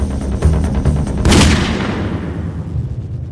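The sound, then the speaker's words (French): A single gunshot ends a music track: a sharp, loud blast cuts across the music, then trails off in a long, decaying rumble. “le morceau se termine avec un bruit de pistolet”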